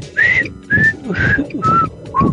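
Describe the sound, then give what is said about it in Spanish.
Someone whistles to call a friend outside after school, five short, clear whistled notes in a steady rhythm, each a little lower in pitch than the one before, loud and alone. “yo le aventaba una piedrita y le chiflaba así, todavía me acuerdo.”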